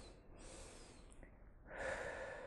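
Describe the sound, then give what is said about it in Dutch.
Two-part inhale through the nose, like a gentle, calm sniff during a breathing exercise: a soft, airy breath with a steady first part and a louder, brighter second draw. “Maar je inademing die breek je in twee stukken op. Ik noem dat altijd alsof ik even heel rustig en heel zachtjes mijn neus ophaal. Dus mijn neus helpt ook gelijk mee, gelukkig. Dat scheelt, die laat het horen.”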